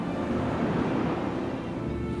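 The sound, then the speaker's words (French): Ocean waves make a steady, rushing wash of surf noise that stays even throughout, with no voices. “La mer. Enfin. Cette vague géante qui monte devant moi.”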